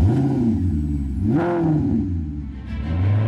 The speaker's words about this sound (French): le SUV selon Maserati. Un son inimitable, un espace généreux, une maîtrise totale avec le système Q4 4 roues motrices.